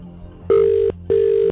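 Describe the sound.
A telephone line rings out unanswered: two steady, even ring bursts of about half a second each, separated by a short gap, over a faint low hum.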